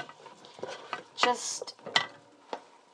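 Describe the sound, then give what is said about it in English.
Stirring and sizzling of extra lean chicken cooking in a pan: a few clattering scrapes over a soft frying hiss, at a moderate level. “And we're going to let that cook. Now, this is extra lean chicken.”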